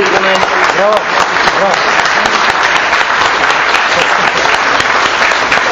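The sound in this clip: Audience applause fills the hall, loud and sustained with dense, even clapping, while a voice is heard briefly at the start.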